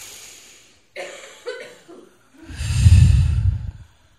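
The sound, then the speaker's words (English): A deep breath in is drawn at a guided meditation before a prayer, a loud, rushing inhale lasting about a second, preceded by a few short, softer breathy sounds. “So take a deep breath in.”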